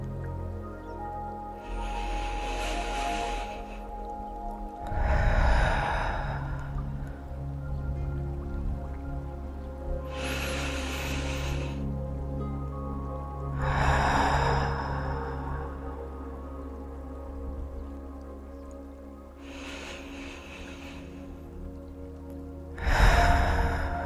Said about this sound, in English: Take 3 deep breaths in with an open mouth and exhale. We'll do it together now.